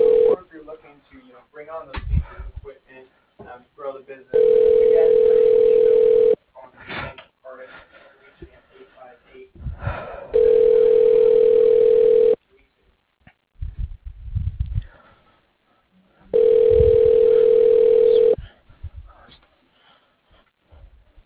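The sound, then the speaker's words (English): A telephone line rings as a call is transferred to voicemail: three steady, mid-pitched ring tones, each about two seconds long and evenly spaced, with talk-like sounds in the gaps between them. “Let me go ahead and transfer you to his voicemail.”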